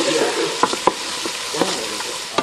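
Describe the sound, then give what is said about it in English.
A spoon stirs food cooking in a pan on a stove, giving a few sharp scraping clicks over a steady, fairly loud sizzle that runs throughout. “I started cooking. Mind if we do it by the stove? Yeah, go. This wasn't for any like deep audio reason. I just need to stir this on.”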